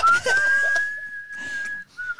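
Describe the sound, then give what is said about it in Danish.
Whistling of a western film tune: a bright, clear tone rises briefly, then holds a long steady note. After a short break it resumes on a slightly lower note, heard alone without talk. “Og forestil jer det der fløjteri, hvor vi bare panner ud over”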